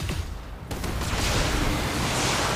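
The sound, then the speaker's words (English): Machine gun fire in a mech combat video game, a heavy, continuous rumbling burst of rapid shots that stays loud and dense throughout, with a sharper jolt near the start. “Alright, well the machine gun hit.”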